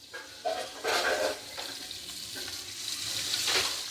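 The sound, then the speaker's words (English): Lionfish frying in a pan at a Caribbean-style restaurant in downtown Manhattan, a steady hissing sizzle broken by a few louder bursts of stirring and spattering oil. “That sound you're listening to? It's a fish getting fried up by Chef Victor at Norman's Key, a Caribbean-style restaurant in downtown Manhattan.”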